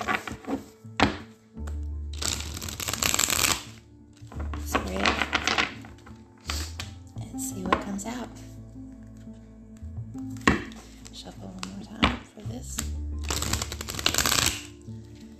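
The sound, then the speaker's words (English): Tarot card decks being shuffled by hand: several crisp, rustling riffle bursts separated by quieter gaps, with dull taps and knocks in between, fairly soft overall. “playing with the Edgar Allan Poe tarot deck and the Rider-Waite tarot deck. It's a clip. And I'm going to pull a 5 card.”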